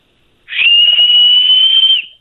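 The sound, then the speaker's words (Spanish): A person whistles very loudly: one sustained, piercing high note with a brief breathy onset, holding almost perfectly steady for about a second and a half before cutting off and fading. “A ver, chifla, adelante.”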